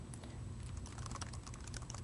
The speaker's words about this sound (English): I'll type my CodePlex password here.